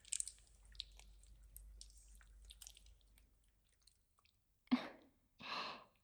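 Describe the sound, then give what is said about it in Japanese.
Lotion squishing as it is spread over a body, faint wet squelches and smacks that fade out, followed by two short breathy bursts. “これからローションを使って、ぬるぬるになっていただきます。”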